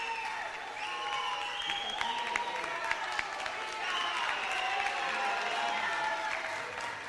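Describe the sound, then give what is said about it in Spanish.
A joyful crowd claps and cheers as the doors of Quitopía officially open, with steady, dense applause running throughout and excited voices mixed in. “Siendo las 10:26, miren la alegría, escuchen la alegría de la gente.”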